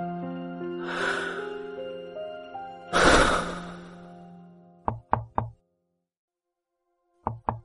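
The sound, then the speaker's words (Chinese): Knuckles knock on a solid wood door, three crisp raps and then two more after a pause, preceded by long, breathy sighs over soft sustained music. “孟昭站在那扇实木门前做了一个深呼吸，稍稍平复心中的忐忑，然后抬手敲了门。”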